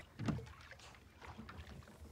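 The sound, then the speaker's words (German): Rowing a rowboat on a lagoon gives an airy wash of water and wind noise, with one stronger low splash near the start and softer uneven swishes after it. “Rudern. Hast du mal gerudert?”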